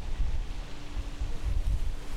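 Gusty wind blowing across the microphone makes a steady low rumble that surges and eases throughout, with no voices present.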